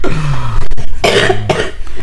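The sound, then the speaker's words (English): Coughing after vaping an e-cigarette: a few loud, harsh, rough coughing bursts in quick succession. “Yeah, it makes me cough too.”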